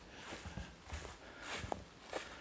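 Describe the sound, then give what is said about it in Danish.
Footsteps walking along a straight forest avenue flanked by towering alder trees, a faint, steady series of paced steps heard alone without talk. “Jeg går af øh, det, der kaldes for Kongens Højmose Allé.”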